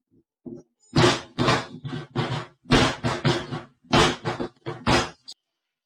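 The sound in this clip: Someone trips on a loose stair step and tumbles down a staircase in a house, making many heavy thumps and thuds in an irregular rapid series of varying loudness that ends abruptly.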